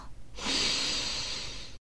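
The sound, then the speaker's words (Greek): A deep breath during a guided breathing exercise: a long, airy rush of air that swells in, stays steady for over a second, then cuts off abruptly. “Εκπνέουμε όσο πιο αργά μπορούμε. Ας το ξανακάνουμε. Εισπνοή βαθιά,”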